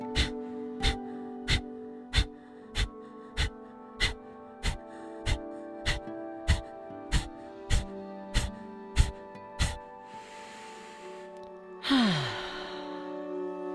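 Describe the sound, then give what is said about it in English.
Pranayama breathing: a steady run of many short, snapped exhales at an even pace, each a quick puff of air, then a longer breath and a louder, sighing exhale, under faint sustained tones. “it is a short inhale and a quick snap of an exhale, and it will sound a little something like this.”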